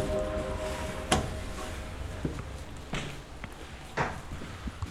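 Footsteps of someone entering a stairwell: a few sparse, irregular thuds and scuffs, fairly quiet, over a low background hiss.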